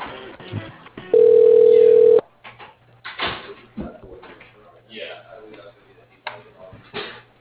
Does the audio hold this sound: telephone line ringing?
yes

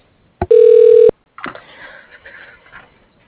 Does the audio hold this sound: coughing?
no

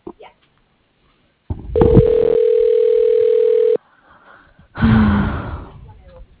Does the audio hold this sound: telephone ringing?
yes

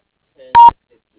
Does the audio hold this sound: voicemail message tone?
yes

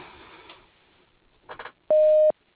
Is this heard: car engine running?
no

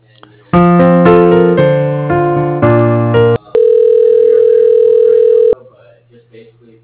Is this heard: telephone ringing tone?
yes

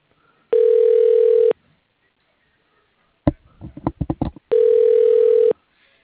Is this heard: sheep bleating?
no

